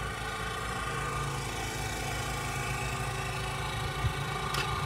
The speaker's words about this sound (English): That's the generator just here.